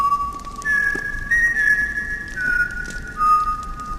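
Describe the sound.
Eerie whistling in the middle of the night, around three in the morning: long, held whistled notes that step between several pitches, with short gaps between phrases.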